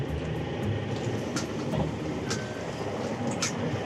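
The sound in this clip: A moving train heard from between two wagons, a continuous low rumbling clatter with faint squeaks and a few brief, high metallic clicks.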